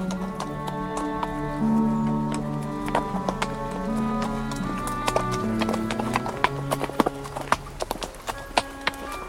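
Hooves of a ridden horse at a walk clip-clop in a steady stream of sharp taps over sustained music, the hoof strikes growing more prominent toward the end.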